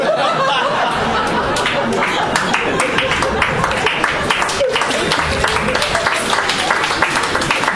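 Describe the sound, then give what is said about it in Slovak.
Lukewarm applause from a stand-up comedy audience, with many thin, uneven claps scattered across several seconds, mixed with chuckles, laughter and a few voices talking. “Áno, tlieskajte mi, mám to rád, aj keď je to také vlažné.”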